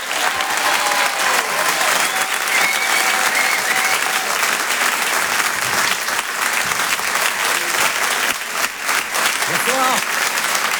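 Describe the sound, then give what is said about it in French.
Sustained audience ovation in a hall during a live comedy and song show, as the crowd applauds a performer: dense, loud, steady clapping throughout, with no break. “Je vous demande une ovation s'il vous plaît pour Céline.”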